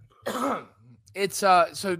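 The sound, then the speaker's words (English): A person coughs and clears their throat in two short, rough, voiced bursts separated by a brief pause. “And oh, I got a cough.”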